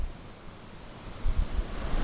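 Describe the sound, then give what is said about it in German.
Sea waves rolling onto a shore make a steady, broad wash of surf noise. Two louder, rumbling surges swell up in the second half. “Es rollt hier wirklich an, das ist... Das hat auf jeden Fall mindestens Ostsee-Feeling, was die Wellen betrifft.”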